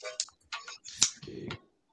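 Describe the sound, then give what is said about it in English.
Typing on a computer keyboard to enter a search: a few quick, irregular bursts of sharp clicks and taps with brief pauses between them, fairly faint. “Let's just type everyday city and see if it pops up.”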